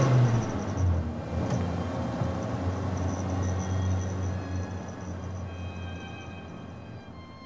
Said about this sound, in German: Wir fahren zum Haus der Oskarovna.